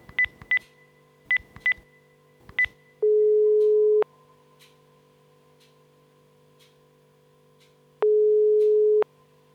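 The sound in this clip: Touch-tone keypad beeps ring out in a quick run of short bursts as a telephone dials a company's number, followed by two long, steady ringing tones separated by quiet.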